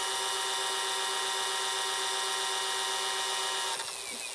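An e-bike drive unit motor starting on its own after the pedal crank is spun fast in a high gear, giving a steady high-pitched electric whine that holds level, then shifts and drops slightly near the end.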